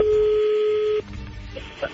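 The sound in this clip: A steady telephone tone sounds for about a second as a call is placed, then cuts off abruptly, followed by faint clicks and a brief beep.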